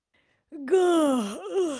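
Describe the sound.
A voice acting out a long yawn for a character in a told fishing story, one drawn-out, groaning tone that starts after a brief silence, sags slowly in pitch, then wavers upward near the end.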